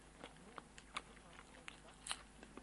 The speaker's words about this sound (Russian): И сейчас мы эти шарики, которые обсыпаны такими аппетитными кунжутными семечками, мы попробуем.